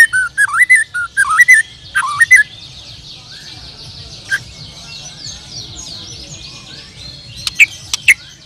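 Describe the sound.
White-rumped shama birdsong: bright, clear whistled phrases repeated several times, then a softer stretch of rapid twittering, ending with a few sharp high chirps over a low steady hum.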